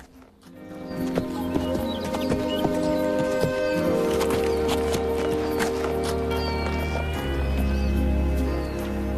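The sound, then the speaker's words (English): A horse walks up and stops beside a man, its hooves clopping in a slow, uneven series of steps that grows fuller and steadier as it approaches. “After a moment, the horse walks up and stands beside Tyler.”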